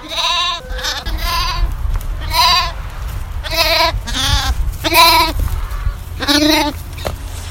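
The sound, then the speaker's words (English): Lambs bleating for their dinner: repeated loud, wavering bleats come one after another with short pauses between them, over a low background rumble and with no talk. “You could probably hear the lambs in the background crying for their dinner as we were at the last bit of our conversation there.”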